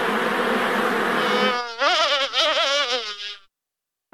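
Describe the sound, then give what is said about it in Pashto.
Honeybees buzz at a honeybee farm in Helmand, Afghanistan, making a dense, droning hum whose pitch wavers. It stays loud and steady, then cuts off abruptly. “د هلمند د کرهنې ریاست وایي دوی د لشکرګاه تر څنګ په ناوې او نهرسراج ولسوالیو کې د شاتو د مچیو لوی لوی فارمونه لري”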